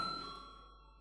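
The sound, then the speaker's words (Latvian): A voting bell in the Latvian parliament chamber rings faintly: a single sustained metallic tone with clear overtones that fades steadily over about a second. “lūdzu zvanu.”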